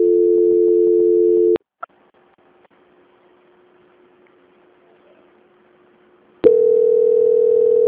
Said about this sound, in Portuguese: Só um momentinho na linha. Transferência.